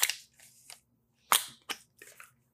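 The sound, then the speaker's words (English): Crushing a can: several sharp, crackling metallic crunches in separate bursts, with brief pauses between them, and no voices. “I'm going to crush a can really quick.”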